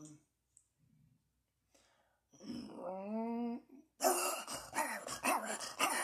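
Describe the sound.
A voice imitates a dog's aggressive attack bark: a drawn-out growling vocal tone, then several harsh, noisy bark-like bursts, loud against near silence.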